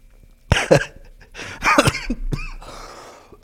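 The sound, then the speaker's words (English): Coughing from someone who exhaled cannabis smoke the wrong way: a few harsh, raspy cough bursts in two clusters, fairly loud, with a breathy rasp trailing off afterward and no talk. “But you ever exhale weed the wrong way? Whew. Makes you cough.”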